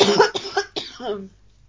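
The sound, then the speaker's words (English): Spluttering coughs after tea went down the wrong way: a quick burst of several harsh coughs, ending in a short voiced groan before it goes quiet. “Oh, I'm sorry. I nearly choked on my tea”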